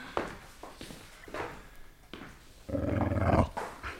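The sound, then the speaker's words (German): Dog growling in a radio drama, a short, throaty growl rising out of near silence toward the end, preceded by faint scattered rustles. “wollen wir nach dem Hund sehen”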